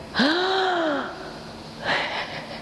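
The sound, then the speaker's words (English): A sharp, voiced gasp drawn in deliberately as a demonstration of emotional breathing, its whistling pitch rising and then falling, followed by a softer, breathy exhale near the end. “If I breathe in a specific way, like,”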